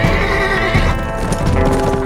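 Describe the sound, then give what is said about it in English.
Horses neigh loudly over the steady pounding of galloping hooves as riders spur their mounts over a ridge. The whinnies and hoofbeats run together in a dense, continuous rush. “They leaned forward in their saddles and spurred their mounts, bounding over the ridge to ride out of the sun straight into the outlaws' camp.”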